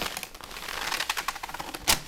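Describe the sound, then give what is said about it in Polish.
Rustling of technical drawing paper, not the older parchment tracing paper: a steady stream of dry crackles and crinkles with many small bursts, ending in a sharper, louder crackle near the end. “Wow, ale to ładnie szeleści. No, przy czym teraz to jest papier techniczny już, to nie jest ta kalka pergaminowa, taka dawna.”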